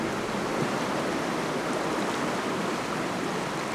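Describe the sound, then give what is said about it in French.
Water rushing out as an old stone canal lock empties to lower the level by about half a metre. The roar is a steady, loud, unbroken hiss with no distinct events. “Vous allez voir le niveau de l'eau qui va baisser par rapport à la pierre.”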